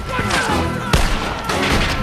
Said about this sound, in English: The bandits use the dirt banks to their advantage, shooting the guards and drivers. Billy watches the gunfight with wide eyes.